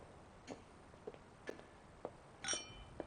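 Glasses clink together in a toast at a family gathering: a few faint, light glassy taps spaced out, one of them a brighter ringing clink.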